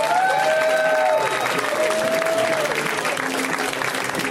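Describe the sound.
Audience applause for a comedian at the UCB: a steady wash of clapping and cheering with a few whistles, sustained at even loudness throughout.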